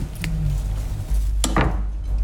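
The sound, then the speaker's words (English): A knife cuts the crust off a loaf of bread sprinkled with hazelnuts: a few short scraping, chopping strokes against a board, over a low steady hum, with no talk. “And then I cut off the crust.”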